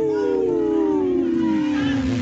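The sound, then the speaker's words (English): A wolf howls in one long, sustained tone that slides slowly downward in pitch. The howl is rich in overtones and loud throughout. “Howl.”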